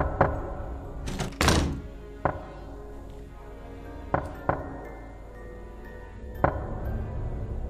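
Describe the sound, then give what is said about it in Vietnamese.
Knocking on the thin sheet-metal side of a car body: a handful of sharp, hollow thuds spaced irregularly over several seconds, each standing out against a low, steady background hum. “tiếng cứ cộc cộc cộc vang lên, tiếng gõ vào thành xe bằng tôn nghe đến rợn cả người.”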